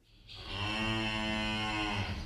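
A cow moos in a cowshed, a single long, low, drawn-out call lasting about two seconds, heard alone.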